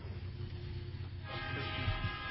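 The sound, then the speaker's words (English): Coal trains moving in the distance give a faint, steady low rumble, and a brighter tonal hum joins about halfway through. “We'll wait a little second. It's going off in the distance. The coal trains are moving on.”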